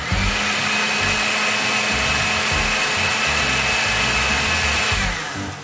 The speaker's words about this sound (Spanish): Agregamos el caldo vegetal, la sal, la pimienta y el pimentón, si decidimos usarlo, y licuamos hasta obtener una crema suave y homogénea.